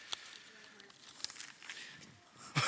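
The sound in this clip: Paper is folded into a small boat, giving faint crisp crinkles and rustles in short bursts while a man talks.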